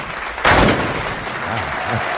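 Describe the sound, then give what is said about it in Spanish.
A confetti cannon bursts on a stage at an award ceremony, giving a single sharp, broad pop early on. Continuous applause-like noise runs through the whole clip. “Una bomba de confeti explota llenando el escenario con papeles dorados.”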